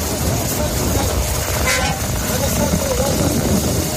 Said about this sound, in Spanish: Es el sonido de los primeros vehículos pesados que han podido cruzar el paso fronterizo de Rafah.